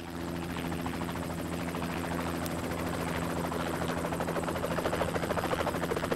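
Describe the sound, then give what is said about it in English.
A helicopter flies low over calm water, banks and slows to land at the water's edge. The rotor chop and engine whine are steady and continuous, and the rotor beats pulse more distinctly toward the end. “a helicopter flies low over an expanse of calm water, banks, slows, and prepares to land at the water's edge.”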